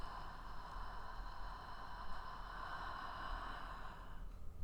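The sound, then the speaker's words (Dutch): Soft breathing during a guided relaxation exercise: a slow, airy, even breath sound that lasts several seconds, faint and with no talking over it. “We ademen in. En uit.”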